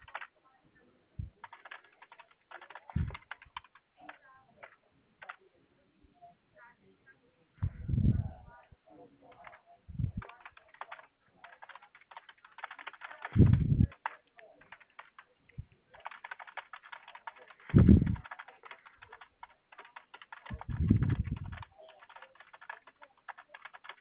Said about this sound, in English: I'm just getting your issue typed up here.